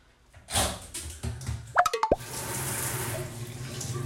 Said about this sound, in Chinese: 好，冲水了哟。